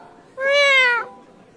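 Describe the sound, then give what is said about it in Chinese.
A single long, drawn-out cat meow, loud and clear against a quiet background, holding a steady tone for about two-thirds of a second before dropping off at the end. “吴一舟长长的喵了一声叫住他。”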